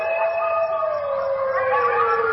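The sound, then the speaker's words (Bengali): A chorus of jackals howls from the rice fields behind a wood. Overlapping sustained wailing tones slowly glide downward and stay steady and fairly loud throughout. “বনের পিছনের ধান ক্ষেতের দিক থেকে তখন শেয়ালের chorus আরম্ভ হয়ে গেছে।”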